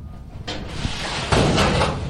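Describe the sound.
The rusty lock of a storage locker is worked open with rough scraping and rattling that runs for about two seconds, growing louder and denser in the second half.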